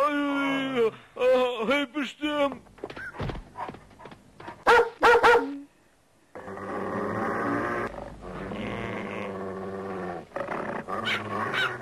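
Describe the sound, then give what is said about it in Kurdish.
A dog growls and barks in bursts, with a pause in the middle, heard together with voices talking. “تۆ سەگێکی عاقڵی لە شوێنی خۆت مەجلێ”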